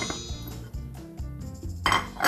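Metal clinks and knocks of a cooking pot and utensils as ingredients are added to a pot of water brought to a boil, the light clattering scattered unevenly with a brighter clash near the end.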